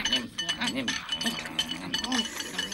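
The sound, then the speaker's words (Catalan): Light clinks of rice bowls being refilled sound faintly and intermittently beneath a narrator's voice, a few small ceramic taps scattered through the passage. “La Lange els torna a omplir els bols d'arròs.”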